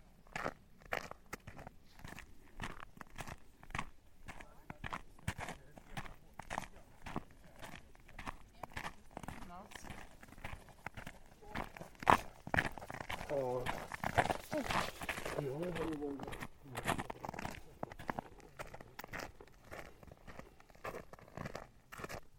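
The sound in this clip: Footsteps of someone walking along a straight stretch of outdoor path, a steady run of many crunching steps that continue evenly throughout.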